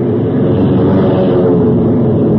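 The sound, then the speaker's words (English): Propeller airplane engines run at a loud, steady drone as the plane is turned into the wind on a field. “The motors caught, and I nosed her into the wind just as the four Chinese on the ground made a dash for the plane.”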